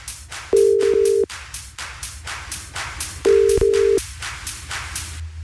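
Telephone ringback tone on an outgoing radio call-in, with two long steady mid-pitched tones a few seconds apart over a steady rhythmic background.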